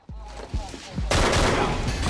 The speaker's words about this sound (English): In his right hand, he holds his pistol. He emerges and shoots one of the police. He then shoots another officer.